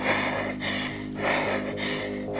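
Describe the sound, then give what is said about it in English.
Heavy, loud breathing rolls in a steady cycle of rushing inhales and exhales, each breath swelling and fading in a regular rhythm. “Can you hear my breath?”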